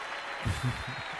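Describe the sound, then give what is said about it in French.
Applause from a concert recording, a steady wash of clapping with a voice briefly over it. “Que des applaudissements. On doit reconnaître les applaudissements, là.”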